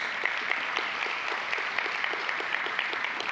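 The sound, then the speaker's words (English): Audience applause at a church gathering welcoming a guest to the stage: dense, steady clapping that fills the whole stretch at an even loudness, with no voices standing out. “Will you give her a hand just so she feels welcome today?”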